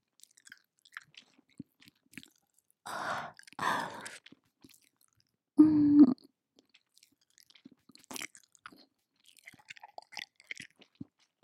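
Soft wet chewing and squishy mouth sounds come in a few short bursts between long quiet stretches, with a brief hummed vocal tone partway through, all faint.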